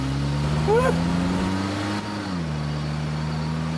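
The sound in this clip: Car engine running at low speed while the driver reverses, a steady low hum with a few tones that shift slightly in pitch around the middle and then hold level to the end.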